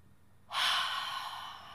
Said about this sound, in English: Deep breaths.